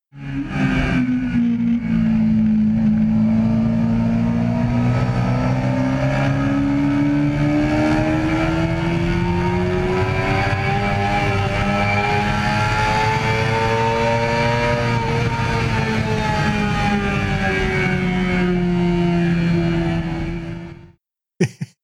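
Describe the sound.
A race car's R6 engine revs hard for about twenty seconds after a missed shift, wound to around 15,000 rpm down a straight. The loud, continuous whine wavers and climbs gradually, eases slightly near the end, then cuts off abruptly.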